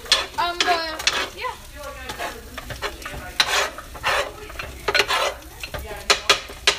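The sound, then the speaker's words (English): Eggs frying and being stirred in a pan while breakfast is cooked, with many quick scraping strokes of a utensil over a constant soft sizzle. “We're just waiting for the eggs to cook.”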